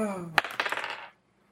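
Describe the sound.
Dice rolled for a tabletop role-playing game check clatter across a surface: one sharp hit, then a quick rattle of several small clicks that fades out within about a second, after a brief voice at the start.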